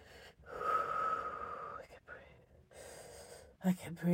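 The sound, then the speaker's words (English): Sniffling through the nose: a few faint snorting sniffs and breaths, quick and airy, with a couple of sharper intakes near the end. “Oh, now I'm sniffy.”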